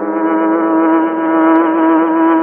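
A car engine drones at a loud, steady pitch with rich harmonics as the car races away. The tone holds level throughout, with no voices.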